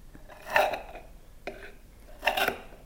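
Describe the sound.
A knife, helped by a fork, cuts through a layered cream slice into bite-sized pieces, giving three brief, crisp crunching bursts spaced about a second apart, the middle one shortest, with quiet pauses between.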